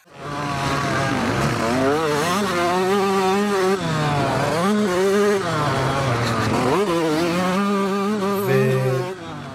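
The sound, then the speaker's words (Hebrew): A Yamaha YZ 125 motocross motorcycle riding on a track: a loud, continuous high-revving engine that repeatedly climbs and drops in pitch as the throttle opens and closes, with no talk. “תנסה להביא להם איזה סרטון של YZ 125 במסלול מוטוקרוס, ננסה, נשים פה.”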